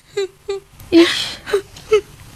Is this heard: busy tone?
no

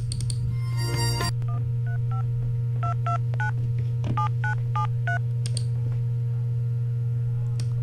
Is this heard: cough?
no

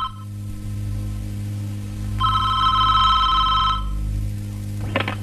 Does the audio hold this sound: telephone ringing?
yes

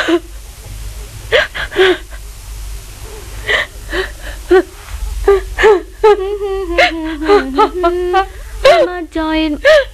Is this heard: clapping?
no

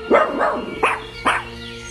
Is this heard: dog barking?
yes

